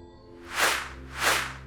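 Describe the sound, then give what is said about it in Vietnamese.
Two arrows whoosh through the air one after the other, each a broad rushing swish that swells and fades, evenly spaced over a low steady drone. “Bỗng vút vút hai mũi tên từ đâu phóng tới, cắm thẳng vào yết hầu và mắt trái của hai tên đàn em.”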